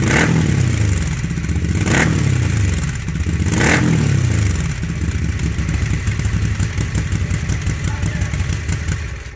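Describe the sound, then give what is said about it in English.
A Moto Guzzi California twin-cylinder motorcycle engine runs loud and steady: a deep throbbing rumble with mechanical clatter and a couple of revving swells early on, then a fast, even pulsing beat through the rest. “Yep, Moto Guzzi. Anyone want to guess the bike? It's not a Flying Fortress. It's a California. Nope. Ah, I hate this game. Same motor.”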